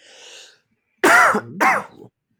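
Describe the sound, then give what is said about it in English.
Two harsh, loud throat-clearing bursts in quick succession, the second slightly shorter, each ending abruptly in silence. “Clear my throat with some Kingsville beer.”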